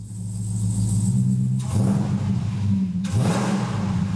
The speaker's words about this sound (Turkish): Şimdi gaz teli iyi tepki veriyor. Araç viteste kendi başına hareket etmiyor ve eskisine kıyasla daha az bir ölüm makinesi. Düzgün çalışınca çok gürültülü bir şey bu.